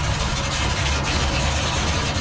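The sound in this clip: A truck engine runs steadily before a drive, giving a continuous low, rumbling idle at an even, fairly loud level throughout, with no voices.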